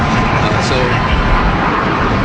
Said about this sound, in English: I mean, you could hear one of the aircraft flying overhead.